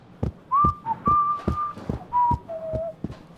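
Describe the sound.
A man whistles a bright TV theme tune while walking, with clear sustained notes stepping up and down, over steady thuds of footsteps falling about every 0.4 seconds.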